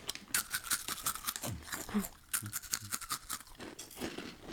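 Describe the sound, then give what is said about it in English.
Quick, crunchy chomping on Fuchi Cute shrimp crackers: a rapid run of crisp bites and crunches, briefly easing around the middle before picking up again. “Hey, guys, you want to see some quick chomping?”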